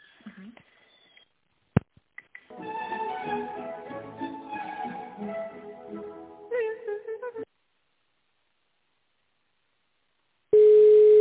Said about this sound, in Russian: Сейчас вас с отделом закупок соединим.